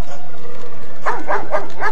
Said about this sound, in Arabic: في هذه اللحظات سمع نباح الكلب ورآه يثب ويخرج من بين ألسنة النار. التفت الكلب إلى جموع الناس وراح ينبح